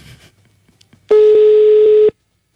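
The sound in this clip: Telephone call tone while calling someone: after faint low murmur, a single loud, steady electronic beep holds for about a second and then stops cleanly.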